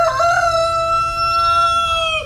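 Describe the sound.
A neighbour's rooster gives a single loud crow: one sustained, strident, strongly harmonic call of about two seconds, heard alone with no other sounds.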